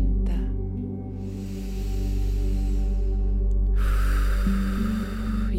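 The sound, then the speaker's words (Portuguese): A deep breath drawn in slowly, an airy rush that swells and fades among a few other soft breaths, over a steady, gentle musical drone. “Respire fundo, pense nesse ar fresco entrando pela sua garganta.”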